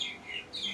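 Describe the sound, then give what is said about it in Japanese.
Birds sing outdoors in Hawaii: a brief burst of high chirping, with two short bright calls at the start and end and softer twittering between them. “鳥の声もいいでしょ、”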